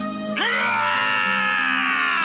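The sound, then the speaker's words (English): A man's loud, strained yell from a film scene swoops sharply upward at its start, then holds a harsh, sustained tone for about two seconds before tapering slightly. “That's Ramble's yell. That's when he's breaking the chains, I'm guessing. No, he's freaking out because of the rats.”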